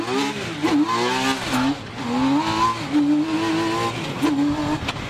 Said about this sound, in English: Canada has a separate category for three-wheelers. And driving T-Rex, that category could be called impractical, but it's just oh so cool.